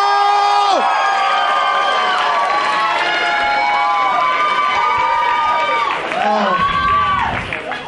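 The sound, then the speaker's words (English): Crowd cheering and whooping at a comedy club as a comedian is brought on, a loud, dense wash of shouts and high whoops holding steady for several seconds before easing slightly at the end. “Make some noise for Anthony Zaccaro!”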